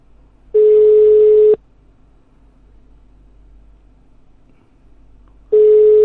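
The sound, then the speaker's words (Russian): Telephone ringing tones sound after a number is dialed: two steady, mid-pitched one-second beeps about four seconds apart, with faint line hiss between them. “Так, набираю номерок.”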